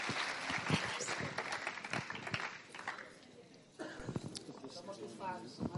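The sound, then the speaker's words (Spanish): Audience applause at a church gathering, given for an interpreter. Clapping runs for a few seconds with voices over it, then fades as talking continues. “Así es que dámosle otro aplauso a Marta.”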